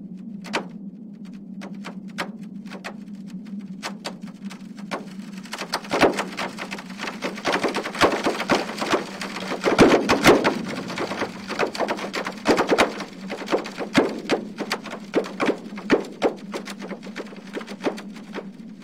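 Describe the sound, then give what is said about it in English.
Sonified seismic data from a volcanic peninsula with hundreds of earthquakes a day, each quake a sharp snap or pop over a steady low hum; clicks come sparse at first, then thicken into rapid irregular crackling, moderately loud, with no voices. “That sound is a translation of seismic data made by the EarthTunes app, run by Northwestern University. Each of those snaps and pops represents an earthquake.”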